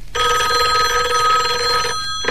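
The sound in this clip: A telephone bell rings in one loud, shrill, unbroken burst of about two seconds, then cuts off.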